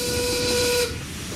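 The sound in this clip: A steam train whistles as it departs a station platform: one sustained, steady tone that cuts off abruptly, leaving a continuous hiss of steam.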